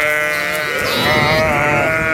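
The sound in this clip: Sheep bleating loudly, drawn-out, wavering cries that overlap and run through the whole stretch, with no talk.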